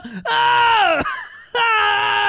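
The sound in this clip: A man's voice imitates a scream of pain from being speared in both legs: two loud, drawn-out harmonic wails, the first sliding slowly downward in pitch before a brief break, the second holding steady to the end.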